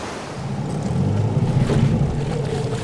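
Ferry crossing water to the western shore, a steady low engine drone mixed with rushing water and wind buffeting, continuous and fairly loud, swelling slightly in the middle.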